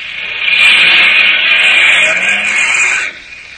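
A getaway car driving off: a loud, harsh, noisy roar that swells in quickly and holds for nearly three seconds before cutting off.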